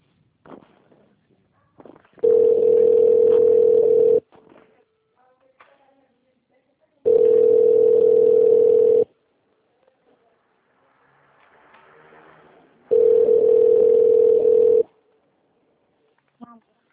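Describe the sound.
Telephone line tone while a call is transferred to an extension: three long, steady, mid-pitched beeps of about two seconds each, separated by long near-silent gaps with faint stray noises.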